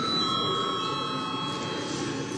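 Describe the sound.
An electric bell rings in a parliament session just before a vote: one steady, unbroken ringing tone held evenly for the whole stretch, at moderate level with no pauses.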